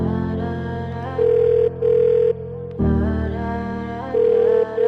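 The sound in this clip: Telephone line tones before a call is placed: a few steady, mid-pitched beeps separated by short gaps, sounding over a music backing.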